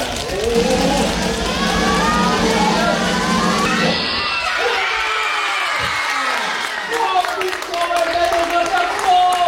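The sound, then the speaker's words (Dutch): Children scream and cheer loudly at the announcement of a children's jury book award. A voice is heard first, then a sustained, shrill wall of shrieking and crowd cheering breaks out and continues. “Er werd zo hard gegild dat het bijna niet te horen was”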